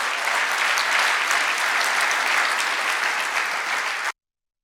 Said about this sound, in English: If you love Jesus, let me hear your hands this morning.